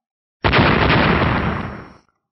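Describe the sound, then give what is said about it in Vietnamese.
Explosion of seven glowing golden orbs: a loud, sudden blast with a broad rumbling roar that begins abruptly and fades away over about one and a half seconds. “bảy cục sáng kim sắc ầm ầm nổ tung”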